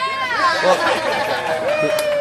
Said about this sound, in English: Well, cheers from the more than modest crowd that was there, because this was quite the place to be.